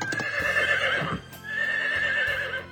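A horse neighs as its hooves come to a stop, giving two long, drawn-out whinnies with a few hoof clops near the start.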